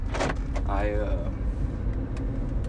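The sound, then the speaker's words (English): Steady low rumble and road noise of a car being driven, picked up on a phone inside the vehicle, holding even in level throughout with a few faint knocks and rattles. “Sorry if you hear a bunch of noises and sounds. I'm recording this on my phone while I drive because I didn't really have time to sit down and record everything on my computer.”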